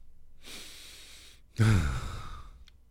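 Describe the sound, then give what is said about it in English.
A deep breath: a long, soft, airy inhale, a brief pause, then a louder, sighing exhale that starts with a low voiced rasp and fades away, heard alone without speech. “A little deep breath there so I can tell you this.”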